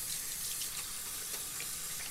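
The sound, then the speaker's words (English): Running tap water pours steadily into a sink for washing hands with soap, an even, continuous hiss at low volume with no voices. “Let's wash our hands and brush our teeth today. Good idea. Let's wash with soap.”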